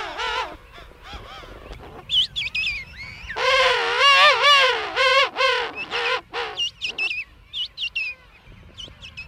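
Penguins call loudly in a dense breeding colony of parents and chicks. Many harsh, braying, harmonic calls overlap and follow one another in bursts, with the densest chorus in the middle.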